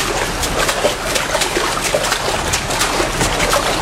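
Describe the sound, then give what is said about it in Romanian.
Splashing water as someone swims, a loud, steady churning wash with small splashes running throughout and no pause. “Uite, pornesc în not spre dumneata. În câteva clipe sunt acolo.”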